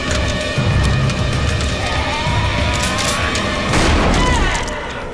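Gunfire rings out in a film shootout with zombies, shots fired from behind a bar. A loud, dense, continuous barrage of bursts and booms runs throughout with hardly a pause.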